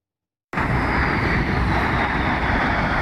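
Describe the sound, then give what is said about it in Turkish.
Roar of Turkish Stars aerobatic jets flying over the Egyptian pyramids: after a brief silence a loud, steady rushing jet noise begins abruptly and holds evenly to the end. “Piramitlerin üzerinde gökyüzünü kesen jetler, kusursuz manevralar ve ay yıldız şeklinde bırakılan duman izi.”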